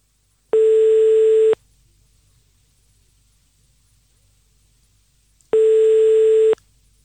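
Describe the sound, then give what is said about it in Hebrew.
Telephone ringing tone on an outgoing call that goes unanswered: two long, steady beeps of about a second each, separated by several seconds of near silence, with no voice picking up. “תענו לנו לטלפון עם איזה משפט של מצילים, והנה אנחנו מחייגים.”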